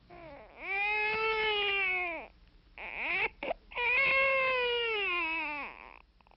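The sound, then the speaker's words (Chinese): Baby crying loudly: two long, strained wails separated by a short catch of breath, each rising and then falling away at the end. “他哭声这么大，恐怕不能够久藏这孩子了。”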